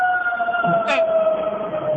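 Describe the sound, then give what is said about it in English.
A fire truck siren sounds: steady, high, sustained tones that hold throughout, with a brief, brighter burst partway through. “Oh, Jesus. Fire truck. Hold on 1 second.”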